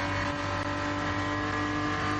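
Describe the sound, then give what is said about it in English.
A touring car races around a circuit, its engine a steady, loud, high droning tone that holds an even pitch from start to finish with no breaks. “Engel having to go pretty much straight across the grass at the end of the lap at the Tiergarten.”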